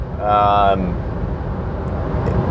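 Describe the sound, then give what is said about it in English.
A car driving on the road toward Louisville gives a steady, low road rumble throughout, with a brief voice speaking at the start. “Obviously, I'm driving to Louisville, so I'm doing something”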